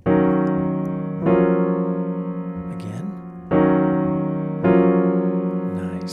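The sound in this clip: Piano locked-hand chords with E-flat and F as the melody notes, a pair of rich, sustained chords played twice, each struck firmly and left to ring and decay.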